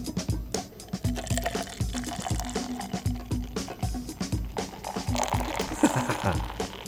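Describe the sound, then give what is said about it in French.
Citrus-scented beer is poured from a can into glasses, a gurgling, splashing stream of liquid with many small bubbling bursts that holds fairly steady throughout. “il va y avoir un petit peu de mousse, considérant la façon que je l'ai versé.”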